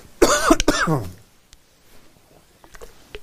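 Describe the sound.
Coughing and throat clearing from someone with something caught in the throat during a Bible lesson: a loud, harsh, voiced burst of a couple of coughs at the start, then faint scattered clicks and rustles.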